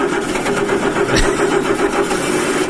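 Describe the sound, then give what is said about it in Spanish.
A car engine cranking but failing to start, out of timing, with the accelerator being pumped: a loud, steady, rapid chugging of the starter that never catches, with a brief thump partway through. “Qué vena cuando está así, viste, y no arranca. Está fuera del punto ya. Y lo bombea, y lo bombea.”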